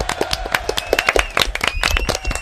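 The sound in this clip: Applause breaks out after the first challenge of a game is passed: many quick, uneven claps from a small group in a short lively burst.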